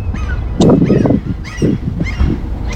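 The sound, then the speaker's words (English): Birds call outdoors among blossoming trees. A few short chirps repeat at intervals over a low, uneven background. “And you can hear the birds, maybe. I think this microphone should pick up those birds.”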